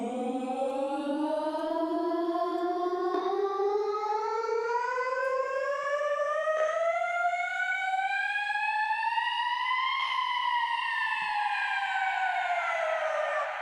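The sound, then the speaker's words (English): A sampled vocal drone loops in a repeating texture mode with its LFO removed. It glides slowly upward in pitch like a siren, then dips slightly at the end, a smooth, sustained, buzzy tone with bright overtones. “It sounds almost like a police siren, but when we have this LFO tool,”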